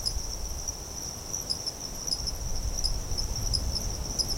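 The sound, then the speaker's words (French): Night insect chorus in the dry season, a steady, shrill, high-pitched trilling that holds unbroken throughout, with a soft low rumble underneath and no voices. “Donc on entend une biophonie qui est vraiment constituée quasi exclusivement d'insectes. C'est vraiment ce qui est très caractéristique des signaux sonores de nuit”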